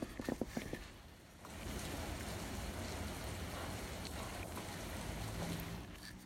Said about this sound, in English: so I wasn't going to talk about this, but it's raining. And I'm gonna let you listen.